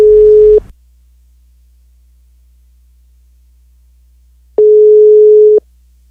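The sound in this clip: Ringback tone of an outgoing telephone call: a steady single-pitch tone, cut off at the start, then after about four seconds of silence a second burst of roughly one second.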